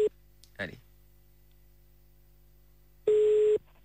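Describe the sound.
Telephone tones as a call is redialled: a short beep, a brief scratchy burst, then a steady tone lasting about half a second, with quiet gaps between.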